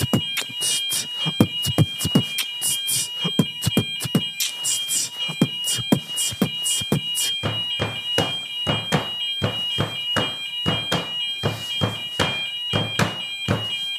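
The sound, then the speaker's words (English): Fire alarm ringing with a shrill, continuous high tone that lasts throughout, overlaid by many rapid, sharp, uneven pulses, loud and with no voices. “What's that sound? That is a fire alarm.”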